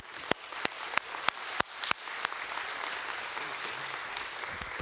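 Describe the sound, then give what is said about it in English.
An audience applauds to welcome a guest professor. Several sharp, separate claps ring out first, then the clapping thickens into a steady, dense wash that holds to the end. “I got a special guest that I've invited. Dr. Stephen Click is a professor at Tennessee Tech. And if you'll join your hands together and welcome him with me.”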